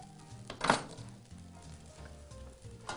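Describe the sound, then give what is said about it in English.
Bread fries in extra virgin olive oil in a pan with a faint, steady sizzle, broken early on by a brief, louder clatter of a utensil against the pan. “Just a little more extra virgin olive oil here. Just help fry the bread. So now that our bread is toasting nicely, just let this keep going.”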